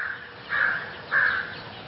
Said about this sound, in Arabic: دي برضو غربان. شوف في ناس تسمع الصوت ده تقول لي ما يحصل كارثة